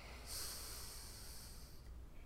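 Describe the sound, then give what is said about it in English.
A forceful exhale pushed out through the left nostril while the right nostril is held shut makes one faint, airy hiss that holds steady for about a second and a half before stopping. “take a deep exhale and push all the air out of your left nostril”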